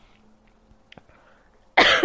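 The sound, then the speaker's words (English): A single short, loud cough brought on by a tickle in the throat breaks out abruptly after a few seconds of near-quiet with faint small noises. “Sorry guys, I have a little bit of a tickle in my throat on and off for the last few days, but it's fine.”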